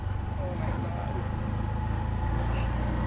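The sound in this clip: A tuk-tuk's engine pulls away slowly, a steady low rumbling drone that holds an even level throughout.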